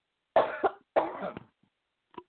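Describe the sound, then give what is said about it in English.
Coughing from a speaker pausing mid-sermon: two harsh bursts, each with a quick second catch, separated by a short gap and followed by silence and a faint final cough. “I have to cough, excuse me.”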